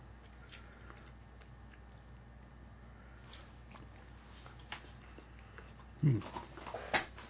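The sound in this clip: Cheese being chewed, with soft, moist mouth sounds that stay faint through most of the stretch, then a few louder squishy bites and chews come in a cluster near the end.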